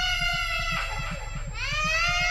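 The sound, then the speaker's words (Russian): An infant cries in long, high wailing bursts that break off briefly and resume, over light background music with a soft steady beat. “Сквозь журчание воды и легкую фоновую музыку Олег услышал плач. «Только не сейчас!» Успел подумать он, и ребенок в голове взорвался криком.”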